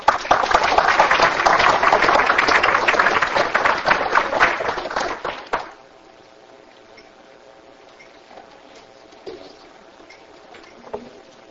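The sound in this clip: Audience applause welcoming a speaker: steady, dense clapping for about five and a half seconds, then it stops abruptly and leaves a quiet background.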